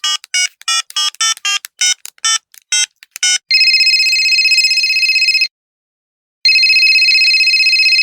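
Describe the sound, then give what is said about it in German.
Telephone keypad tones beep in a quick, uneven series as a number is dialled for an outgoing call, followed by a long steady ringback tone, a short silence, then a second ring. “Wollen wir sie mal anrufen? Die rufen wir mal an.”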